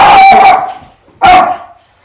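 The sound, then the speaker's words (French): A dog barks twice, loud and tonal, the first bark longer and ringing, followed after a short pause by a second sharp bark that trails off. “On a eu un pic de son pour le moment d'aboiement du chien.”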